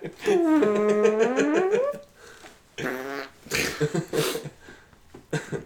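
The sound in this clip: A voice imitating a fart: a long, buzzy, droning vocal tone, then a few shorter sputtering, blatting bursts with pauses between them.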